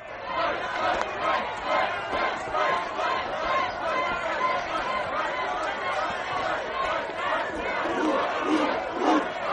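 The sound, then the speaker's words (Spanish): An impatient crowd in a Roman arena waiting for executions makes a dense clamour of many voices, shouting and chattering at once. The noise rolls in continuous swells without pause. “El público está impaciente porque dé comienzo el siguiente acto: las ejecuciones.”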